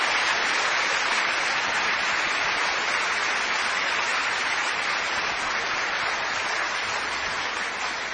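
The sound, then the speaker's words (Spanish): Applause from a church audience, given as a tribute to the Lord at a religious event: dense, steady clapping that holds at an even, loud level throughout with no voices on top. “¿No le dan un aplauso al Señor?”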